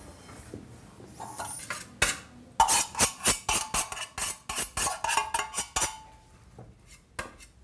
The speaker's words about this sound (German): Dann müssen wir das Blech einfetten und dann geben wir den Teig dorthin drauf.